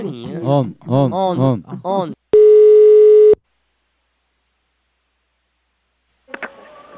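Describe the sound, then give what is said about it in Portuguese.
A telephone ringing tone sounds during a prank call: one long, steady, even beep follows a stretch of talk, then the line goes quiet before a brief faint sound near the end. “Vou ligar pra Anastácia.”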